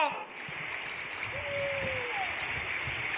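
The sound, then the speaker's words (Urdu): Water running and splashing in a steady, continuous rushing hiss with no distinct separate splashes. A faint thin whistling tone passes briefly through the middle. “یہ پانی کی آواز ہے”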